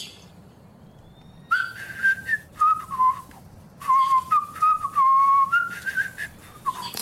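A person whistles along at a tabletop role-playing game session: two clear melodic phrases of bright, sustained notes that step up and down, with short pauses between them and no talking.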